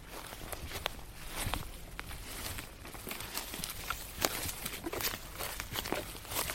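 Footsteps move along a forest path on a mushroom-hunting walk, with many soft, crunchy steps in a fairly steady rhythm over a continuous rustle.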